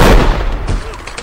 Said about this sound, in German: Hey, verdammt guter Schuss!